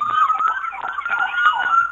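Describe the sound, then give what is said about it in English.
An ambulance siren sounds from a postal ambulance in a back-to-school parade, a loud, continuous, rapidly wavering wail with no voices over it. “Now we have our postal ambulance.”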